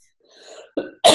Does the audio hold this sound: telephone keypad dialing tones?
no